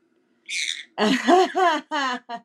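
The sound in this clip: A pet bird calls: a high, thin chirp followed by several louder, harmonic, voice-like squawks in quick succession, heard alone without any talk.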